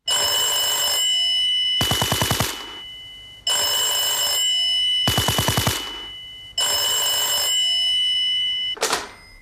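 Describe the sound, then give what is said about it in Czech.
Theme jingle of a radio prank program built around a ringing telephone bell: steady electronic tones alternate with loud rattling bell bursts, repeating several times in a regular pattern. “Takovouto podobu měla znělka pořadu.”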